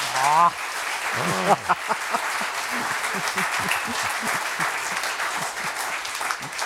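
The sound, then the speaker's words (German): Audience applause in a concert hall: a dense, steady roar of many hands clapping that carries on for the whole clip, with a brief voice audible over it at the start. “Sie dürfen applaudieren, denn was Sie gehört haben, ist alles richtig.”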